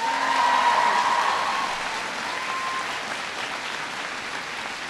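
Sustained audience applause at an event at Thomas Jefferson High School for Science and Technology: dense, steady clapping that eases slightly after the first second and carries on evenly.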